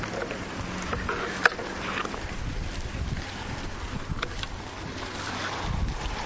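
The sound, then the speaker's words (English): Wind blowing outdoors and buffeting the microphone, a steady low rumbling roar with gusty swells and one sharp knock early on. “This wind has forced me to flip my notes around here a little bit.”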